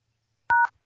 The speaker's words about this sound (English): Please enter the 10-digit phone number associated with your account.